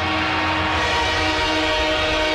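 Train noise at a football game: a dense, steady roar with sustained horn-like tones running through it, loud from start to finish.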